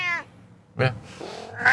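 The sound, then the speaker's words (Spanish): A cat meows a few times. The first meow is clear and tonal, and shorter, rougher mews follow it. “Y hoy es el día del gato. Claro. Por eso había un miau, miau por ahí.”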